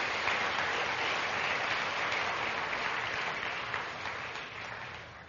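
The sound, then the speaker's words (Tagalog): Sustained applause from a church audience clapping for the Lord: a dense, even wash of clapping with no voices over it, slowly tapering off toward the end. “Pwede mong palakpakan natin minsan pa ang Panginoon.”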